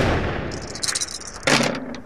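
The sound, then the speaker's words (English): A single pistol shot is fired at a tree, a sudden sharp crack with a short decaying tail following a stretch of quieter rustling noise. “Hip, like, levels his pistol against one of these trees and fires.”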